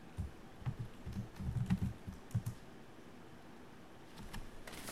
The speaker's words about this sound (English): So maybe I should type it. I'll type it, it's faster.